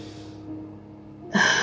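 A deep breath drawn in during a guided breathing exercise, a single airy intake that starts soft and swells suddenly louder near its end.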